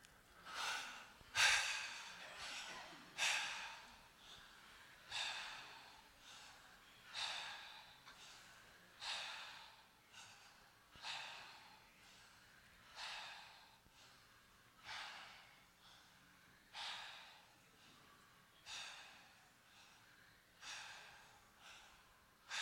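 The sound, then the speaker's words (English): A person breathing through the mouth in a guided exercise of 20 straight breaths: many steady, evenly paced, soft airy breaths, each swelling and fading, quiet and without talk. “So breathe with the mouth. 20 breaths. You don't need to count four short ones, one long one. Just 20 breaths straight through with the mouth.”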